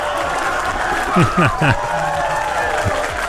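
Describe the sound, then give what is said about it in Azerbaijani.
Applause greeting a caller who answered a quiz question correctly in a word game, steady clapping with voices talking over it. “Artıq alqışlardan hər şey məlumdur Roman bəy.”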